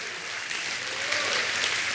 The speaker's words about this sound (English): Somebody clap your hands and give him praise in his house. Hallelujah.